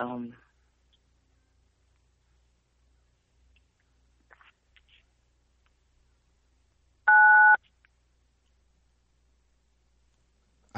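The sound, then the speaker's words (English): A single short, loud two-tone beep of a telephone keypad being dialed on another extension of the same phone line. It stands alone amid near silence. “Someone stole a phone in the middle of this conversation. So somebody picked up and started dialing on the other line.”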